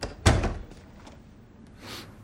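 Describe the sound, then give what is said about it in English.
A door is shut from a hallway: one sharp, heavy thud followed by a short decay, then quiet with a faint breathy noise near the end. “He shuts the door behind him”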